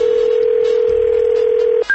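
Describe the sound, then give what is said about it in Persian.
A steady telephone dial tone holds unbroken as a call is placed again, then cuts off and a single higher electronic tone begins. “دوباره زنگ زدیم ببین چی شد”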